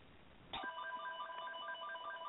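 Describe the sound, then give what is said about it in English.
A telephone rings in the background, a faint electronic warble that starts shortly in and repeats steadily to the end. “The phone is ringing in the background.”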